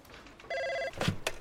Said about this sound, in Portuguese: O interfone do chefe da Nintendo, Hiroshi Yamashi, toca.